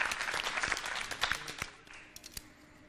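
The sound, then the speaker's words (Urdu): Applause breaks out at an archery competition, dense clapping from many hands that gradually thins until only a few scattered claps remain at the end. “تالیاں بجنی چاہیے.”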